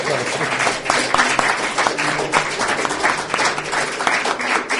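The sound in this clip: Audience applause at a German-English church gathering, a dense, continuous patter of many hands clapping at a fairly even level throughout.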